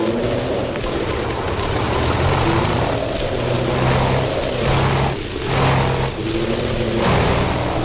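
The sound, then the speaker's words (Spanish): A propeller airplane engine failing in flight over the Sahara desert: a loud, steady, rough drone that dips briefly in level a couple of times near the end, with no voices. “No puede ser. Otra vez está fallando la misma hélice.”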